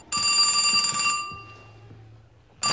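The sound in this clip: A telephone rings at night with a bright, steady electronic ring lasting about a second. A low hum follows, then the ring starts again at the end. No voices.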